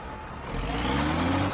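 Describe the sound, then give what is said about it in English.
A green freight truck's engine drones low and rough as it nearly hits a pedestrian on a street. The faint rumble swells in loudness partway through and holds a steady tonal hum. “A green freight truck almost hits him.”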